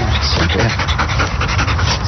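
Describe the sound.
A female Belgian Malinois pants rapidly during search and rescue training with a police dog unit. The breaths are loud, continuous and rhythmic, mixed with voices throughout.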